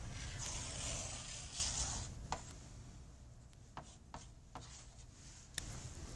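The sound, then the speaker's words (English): A line being drawn on a graph: a faint, continuous scraping stroke, followed by several soft, separate ticks and taps. “So let me try to draw a line.”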